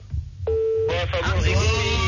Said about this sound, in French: Il y avait la tonalité là.